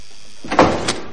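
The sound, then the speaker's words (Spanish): A door opening after a digital keypad code is entered in a corridor. Quiet gives way to a short swishing burst, then a second, smaller push just before the sound fades. “se detiene ante una puerta. Introduce una clave en un portero digital y entra en la estancia.”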